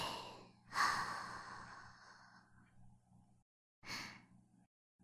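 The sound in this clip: Deep breathing in and out: a long, soft, airy breath followed after a pause by a second, shorter breath. Both are faint over a low steady hum.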